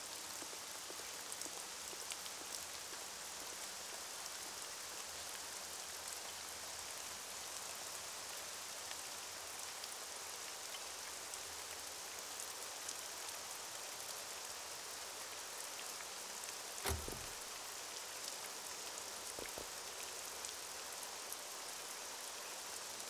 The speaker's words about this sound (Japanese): それから一週間が過ぎ、ようやく雨が降った。